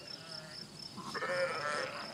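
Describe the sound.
Sheep bleating from a flock of a shepherding family's herd, part of about 1,500 animals across three herds, with a few wavering, nasal bleats rising over a steady outdoor hiss.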